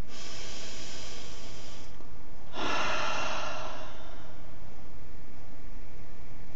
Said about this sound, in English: just breathe deeply and slowly in and out.